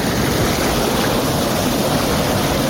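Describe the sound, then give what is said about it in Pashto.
Stream water rushes around a person standing with their feet submerged in it. The loud, even wash of moving water continues without a break and no one speaks. “په اوبو کې ولاړ دی خپې په اوبو کې ورډوبي کړی دی”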